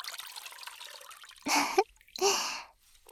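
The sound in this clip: Hot water trickles and drips in two distinct bursts, each lasting about a quarter to half a second and separated by a short gap. A faint, hissy wash sits under the opening second.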